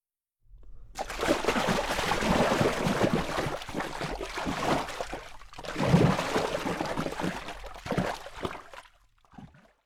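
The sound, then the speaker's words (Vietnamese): Water slapped hard and splashing, in two long bouts of many irregular, overlapping splashes with a short lull between them. The splashes are fairly quiet, with no voices. “đây là từ dùng để miêu tả âm thanh nước bị vỗ mạnh, bắn tung tóe”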